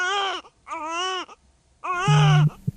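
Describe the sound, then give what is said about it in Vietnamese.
Newborn baby crying just after delivery, umbilical cord not yet cut: three loud, wavering wails with short gaps between them, the last one the strongest. “Thì lúc nãy bảo khóc thì chẳng khóc. Ôi dồi, khóc nhiều thế.”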